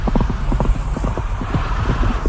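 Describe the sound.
Hooves pound as a winged white horse gallops in a fairy tale. The beats come in a fast, driving rhythm through the whole clip, low and thudding over a steady background rumble, with many hoofbeats and no voices.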